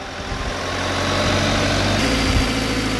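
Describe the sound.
The engine of an aerial lift truck runs as it raises a worker about 11 meters to a stork nest: a steady, heavy, low idling rumble that grows slightly louder over the first second, then holds even.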